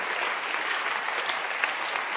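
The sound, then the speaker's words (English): A church audience claps during a sermon, a dense and even patter of hands that continues steadily without breaks. “So clap for the Holy Spirit.”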